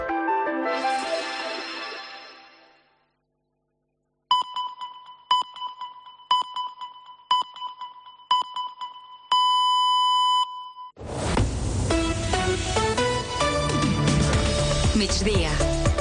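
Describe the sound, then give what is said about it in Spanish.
Radio time signal pips mark the quarter hour: several short, high electronic beeps in even succession, ending in one longer sustained tone. Music plays before and after. “acaben de sonar les senyals horàries de 2:15 d'aquest migdia”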